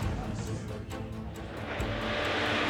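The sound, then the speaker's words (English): A rally car engine roars at full throttle on a stage: a loud, continuous, rough roar with rhythmic pulses that builds slightly toward the end. “Now just bury the throttle”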